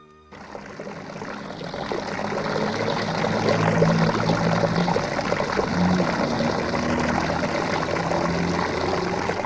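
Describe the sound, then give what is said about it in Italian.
Water splashing and running from a street fountain, where an inclined brick now lies in the flow: a steady, dense rushing wash that swells in after a brief quiet start and stays even throughout. “E questo è il rumore della fontana di via della Cisterna”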